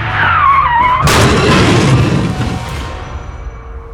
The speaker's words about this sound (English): Now I'm sliding sideways straight through the stop sign and beyond.